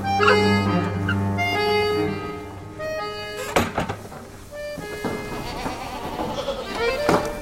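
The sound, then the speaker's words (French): Goats tended by a shepherdess bleat on a farm, giving several wavering, nasal calls that overlap and recur throughout, fairly loud and steady. “À côté, on entend les chèvres dont s'occupe Hélène, la bergère du groupe.”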